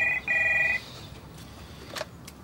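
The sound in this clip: A telephone ringing at home: one short electronic ring and then a longer one in quick succession, fairly faint, followed by a quieter stretch with a brief soft click.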